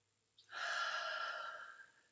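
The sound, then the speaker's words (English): A person takes one long, deep breath in during a chakra toning session. The breath is soft and airy, swells quickly, then slowly fades, heard alone against near silence. “Taking a deep breath.”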